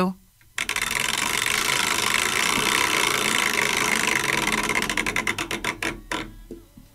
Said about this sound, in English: Time for a wheel spin.